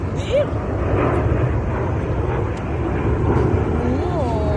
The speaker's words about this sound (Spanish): Así suena este avión que ha estado sobrevolando a 800 metros de altura sobre Madrid.